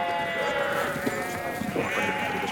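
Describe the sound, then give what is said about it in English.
Sheep bleat continuously while being counted into pens, many overlapping bleats from a large flock forming a dense, steady chorus throughout. “At the base, the sheep are counted into pens, Agiri watching.”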